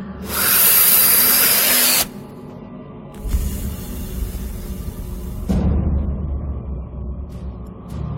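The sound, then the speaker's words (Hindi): Cigarette smoke is exhaled after a drag in a long, breathy hiss that stays loud for about a second and a half. A softer, steady rushing hiss follows and swells again toward the end. “उसने दोबारा एक कश खींचा और धुआं छोड़ा”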